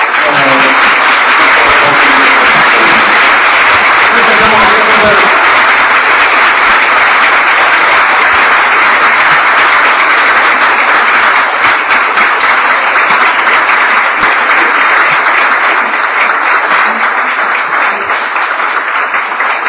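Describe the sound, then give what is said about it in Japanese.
A big round of applause as the lecturer leaves at the close of a lifelong-learning lecture event: loud, dense, sustained clapping from the audience that runs for about twenty seconds and eases slightly near the end. “ここで、講師の斉藤先生がご退席されますので、もう一度大きな拍手で、”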